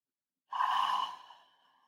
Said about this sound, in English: In this moment, I want you to take a deep breath.